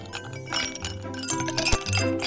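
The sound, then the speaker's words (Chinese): Ice cubes and coarse salt tumble into a large basin in a steady stream of many bright clinks, rattles and clatters, fairly loud and uneven throughout. “把那个大盆子搬上来，把这些冰块和你妈洗菜用的粗盐一起倒进去。记得要3份冰块1份盐。”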